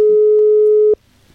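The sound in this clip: A telephone line tone plays while a call connects: one steady, loud beep lasting nearly a second that cuts off abruptly into near silence.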